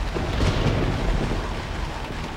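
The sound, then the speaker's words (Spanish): A violent thunderstorm with large hail pouring down, a dense, steady roar of falling ice and rain over a low rumble, loud and unbroken throughout. “Y esta vez la tormenta llevaba en sus gélidas alas no nieve, sino un enorme granizo que cayó con tal violencia”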